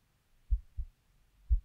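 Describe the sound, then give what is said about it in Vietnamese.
A heartbeat sound effect of a heart pounding with tension, heard as faint, deep thuds: a quick double beat, a pause, then another beat. “Tim tôi lúc này cũng đập thình thịch, căng thẳng.”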